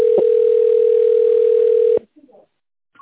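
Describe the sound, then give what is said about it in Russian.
A single telephone tone sounds while a call connects, one loud, unbroken beep for about two seconds that cuts off abruptly, followed by a few faint, brief sounds. “Please wait while we connect your call.”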